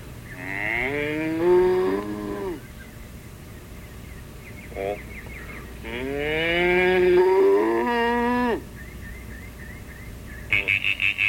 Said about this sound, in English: Cow. Cow. Yep. Cow. Yep. Cow.